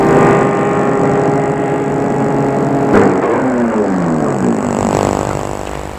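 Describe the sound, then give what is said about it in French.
A black car pulls up and stops in front of an apartment building. Its engine hums steadily, a soft knock sounds midway, and then the engine tone drops lower as the car settles to a stop. “attends, la voiture vient de s'arrêter devant l'immeuble.”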